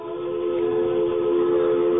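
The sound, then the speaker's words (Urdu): A train horn blows one sustained, loud chord that holds steady for about two seconds without any voices. “یہ کس چیز کی آواز آ رہی ہے ریل گاڑی کی جی ہاں یہ ریل گاڑی آ گئی ہے”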